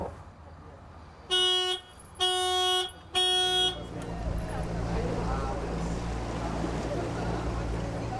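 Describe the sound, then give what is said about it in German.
A 15 hp motorboat heads through Rostock's city harbour. Three long horn toots sound first, then a steady, broad drone of motor and water noise takes over and continues to the end. “Mit 15 PS geht es erstmal durch den Rostocker Stadthafen. Du darfst jetzt einen Schiffsführer machen.”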